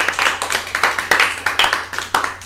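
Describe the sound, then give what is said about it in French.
A class claps for a student in a Bible lesson, many quick, even, rhythmic claps at a steady tempo. “Acclamation pour elle.”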